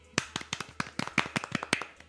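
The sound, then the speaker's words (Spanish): Fake applause from sparse hand clapping: many separate, sharp claps in an uneven patter over about two seconds, fairly faint, with no voices. “Es un aplauso falso.”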